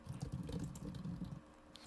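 Faint clicks of typing on a computer keyboard while a database query is edited come as a quick, uneven patter of keystrokes and trail off near the end.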